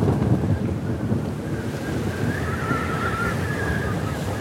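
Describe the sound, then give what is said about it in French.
Wind and sea on a North Sea voyage: a steady, loud, continuous rush of wind over open water, with no distinct voices or breaks. “un voyage en mer du Nord.”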